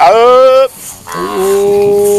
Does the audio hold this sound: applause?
no